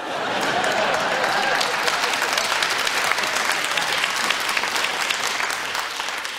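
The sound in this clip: Audience applause on a quiz show: loud, steady, dense clapping that runs without a break for the whole clip.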